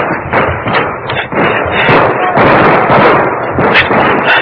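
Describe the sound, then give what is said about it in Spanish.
Gunfire aimed at a person running for cover toward a house: a dense, continuous barrage of loud, overlapping bangs and thuds that lasts through the whole clip. “Ya me divisaron. Me están disparando.”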